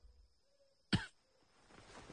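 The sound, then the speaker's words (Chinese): A man coughs once: a single short, sharp cough that stands out against an otherwise quiet background. “范蠡咳嗽一声说，”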